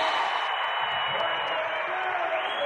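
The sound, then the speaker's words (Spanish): Audience applause and cheering for a song's creator, a dense, steady wash of clapping and crowd noise that holds for the whole stretch. “¡Un aplauso grande!”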